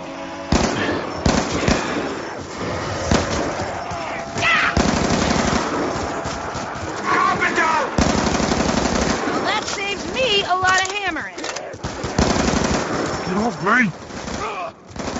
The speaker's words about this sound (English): Oh, I'm using a lot of bullets considering this still insta kill up.